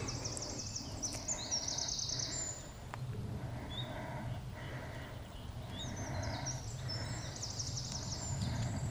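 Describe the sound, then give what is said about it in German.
A wren, a tiny bird with a very loud voice, sings at a rest area along a beech-forest trail in a limestone-alps national park. Rapid, high, faint trilling phrases arrive in two bursts, separated by a quieter pause. “Das ist der Zaunkönig. Einer der kleinsten Vögel, die es bei uns gibt, aber mit der lautesten Stimme.”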